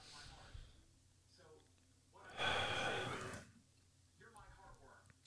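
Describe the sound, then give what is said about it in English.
A single deep breath, a loud, rushing breathy burst lasting just over a second in the middle, set between quieter stretches of faint breathing. “Let me pause for a second. Take a deep breath.”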